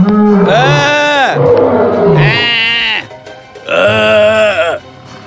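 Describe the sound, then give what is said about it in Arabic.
A lion springs out from behind bushes and roars three times, each roar loud, deep and strongly harmonic, with short gaps between them. “ظهر فجأة أسد من خلف الشجيرات يزأر”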